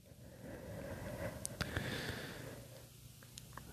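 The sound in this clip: Quiet mouth breathing and sniffing from a woman holding back tears. Soft, breathy noise is broken by a few short, sharp sniffs, with no talking.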